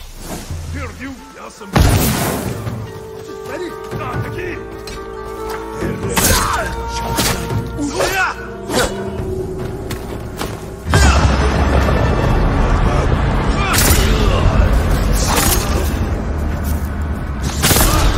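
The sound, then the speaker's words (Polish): A gunpowder bomb explodes in a video game with loud booming blasts and crashing debris, then a heavier burst partway through that stays dense and loud to the end. “Bomba prochowa, tak jest.”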